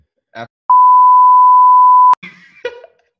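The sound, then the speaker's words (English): A steady, high-pitched censor bleep lasts about a second and a half, with short fragments of speech just before and after it. “We're going to bleep that out.”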